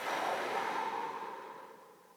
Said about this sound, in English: It is time to open your eyes, to take a deep breath through your nose. Hold it. Out your mouth.